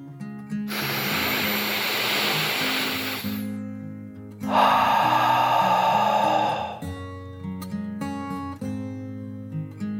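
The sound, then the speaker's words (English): A deep dragon breath, one long breathy inhale followed by a longer and louder exhale, hisses over soft, gentle music. “Clara took a deep dragon breath in and out.”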